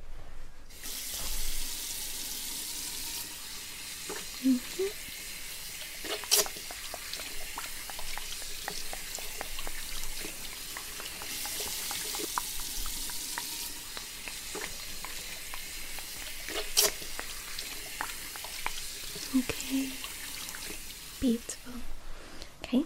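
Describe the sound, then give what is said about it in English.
Running water rinses conditioner out of a client's hair at a hair salon, a steady, soft rush of flowing water with occasional splashes and gentle spikes over a long stretch. “Right, and then let's rinse this conditioner.”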